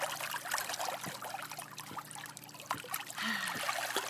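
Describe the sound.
Water jets spraying, a steady faint rush and trickle of water with small scattered clicks throughout, no voices.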